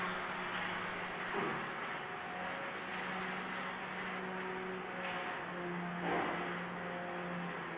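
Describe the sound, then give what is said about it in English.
A concrete vibrator compacts wet mix poured into a column form packed with rebar, giving off a steady, buzzing drone with a low hum underneath that barely changes throughout. “And he's vibrating the mix because he wants to make sure that the mix doesn't get hung up in the rebar and cause a cavity to form in the column.”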